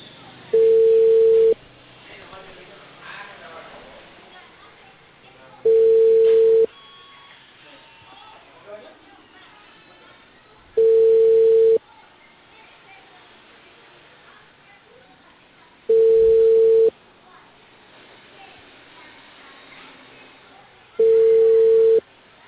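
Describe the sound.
A telephone ringback tone plays while a call is being placed: five steady beeps of a single mid pitch, each about a second long, evenly spaced by pauses of several seconds over faint background noise.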